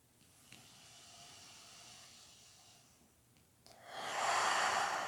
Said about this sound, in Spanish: Inhala profundo por tu nariz. Exhala por tu boca. Dos veces más, inhala.